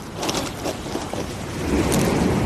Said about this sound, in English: That sound you can hear behind me is the incoming tide, relentless and unstoppable